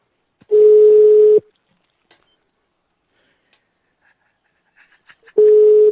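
Two steady, mid-pitched telephone tones, each about a second long, sound while a dropped call is redialed after losing coverage, separated by a few seconds of near silence with faint ticks.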